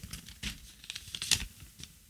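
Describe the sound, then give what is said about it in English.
Soft crinkling and rustling of a paper slip being pulled out of a small bag of prize-draw entries, with a few faint, scattered crackles at low volume. “I'm going to give them a bit of a swirl around in the bag. And it's very exciting audio, isn't it? And here we go. I'm going to pull a piece of paper out,”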